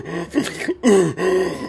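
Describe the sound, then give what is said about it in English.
Husky, heavy, out-of-breath panting is imitated by a voice in a few strained, raspy gasps that come in quick succession with short breaks between them. “You're going to be husky breathing. You're going to be like,”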